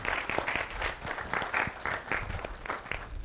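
Congregation at Lawson Road applauding to welcome a new member, a steady patter of many hands clapping at moderate to soft level for a few seconds, with no voices standing out.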